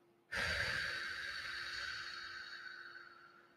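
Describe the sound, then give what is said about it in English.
Deep breathing through the open mouth: one long, airy breath starts abruptly and slowly fades over about three seconds, fairly quiet and alone, with a faint steady hum beneath it. “Breathe in for 8. And then out for 5. Open your mouth as you do it,”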